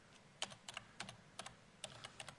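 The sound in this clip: Typing on a computer keyboard: many faint, crisp keystrokes tap in irregular clusters with short pauses between them.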